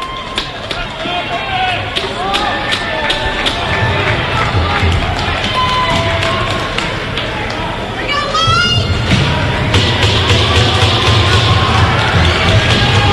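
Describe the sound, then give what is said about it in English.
A crowd at a lacrosse game cheers and raises a ruckus during a face-off. A steady roar of voices and scattered shouts runs under a commentator's talk, and the noise swells toward the end. “You can hear the crowd in the background raising a ruckus.”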